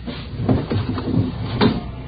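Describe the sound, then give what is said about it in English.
A window is opened with a few scraping, rubbing bursts of wood and frame sliding, moderately loud and irregular, over a low background hum. “I don't see anything on the windowsill. It's on the outside. Open the window and let me check.”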